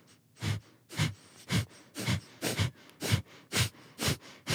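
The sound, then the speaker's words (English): A person does sharp, rhythmic Kundalini yoga breathing, pumping forceful exhales from the belly. The exhales come as a steady series of loud, breathy bursts, about two per second, with quick intakes between them. “It's like, it's a little pump in your belly and you breathe in sharply and you exhale”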